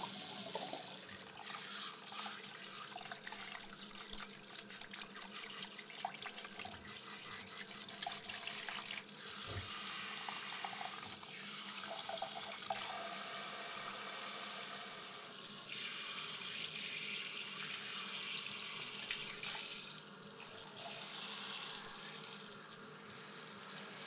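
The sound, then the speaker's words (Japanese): Hot water runs from a tap to rinse shampoo out of hair, a steady hissing stream that continues for the whole stretch and shifts slightly in tone partway through as the flow is moved. “お湯は熱くないかな。じゃあ、ささっと流しちゃいますよ。”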